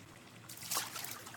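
Soft trickle and splash of water in a bath, faint and low throughout, with a brief fuller wash of water near the middle before settling back to a quiet, steady dribble.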